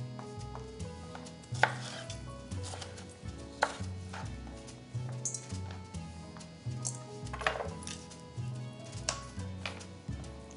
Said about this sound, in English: So we'll just cut the sides off. Okay, and then I'm gonna shake the seeds off. And into the bowl we go with it. Trim this up a little bit.